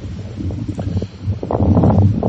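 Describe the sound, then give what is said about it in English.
Outdoor wind buffets a microphone with a deep, rumbling roar and uneven gusts. No voices are heard, and the blustery noise grows stronger and steadier in the second half. “The wind is really something today, so we'll work on that. Give me 1 second here to die down.”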